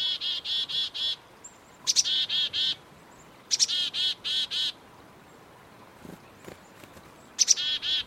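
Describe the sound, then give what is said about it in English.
Black-capped chickadee singing its chickadee-dee-dee song: a few bright, buzzy call series, each a short high note followed by a run of evenly spaced harsh 'dee' notes, separated by quiet pauses. “Their song call sounds like chickadee-dee-dee-dee-dee, chickadee-dee-dee-dee-dee. Here, let's listen together.”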